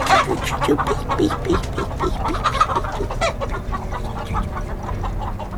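Chickens cluck steadily in a farm courtyard beside a barn and pigsty, a busy overlapping stream of short clucks and squawks that continues at a moderate level throughout, with no talking.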